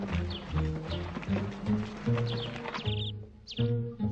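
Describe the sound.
Hooves of a running horse, a quick run of clip-clop beats that continues throughout and stays moderately loud.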